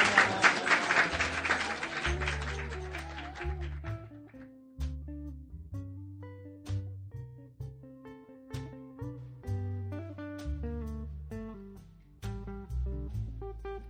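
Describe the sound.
Audience applause follows a live true-story storytelling performance, a dense burst of clapping for about two seconds that thins out as music with low bass notes takes over and continues alone.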